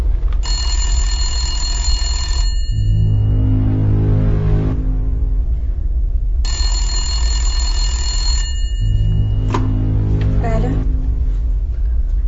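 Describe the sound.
A home telephone rings in two long bursts of bright, electronic-sounding ringing, separated by a pause of a few seconds. A steady low hum runs underneath, and there is a brief extra clatter near the end.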